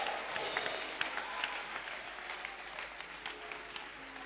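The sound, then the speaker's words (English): A church audience clapping their hands together: dense, steady applause of many overlapping claps, continuous and even throughout, with no pauses. “Are you clapping your hands for Jesus?”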